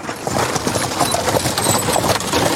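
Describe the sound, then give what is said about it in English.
Hooves clip-clop as a horse pulls a carriage through the countryside, with many steady hoof strikes in an even rhythm over a continuous rough rolling noise, and no voices. “He would have a driver drive him in a carriage in the countryside near Lubavitch.”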